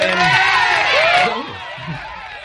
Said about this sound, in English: Yeah, we usually have the canned audience, you know, just in case.